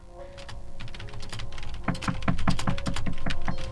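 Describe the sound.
Typing on a computer keyboard: many quick clicky keystrokes, sparse and soft at first, then a denser, louder burst of rapid taps in the second half.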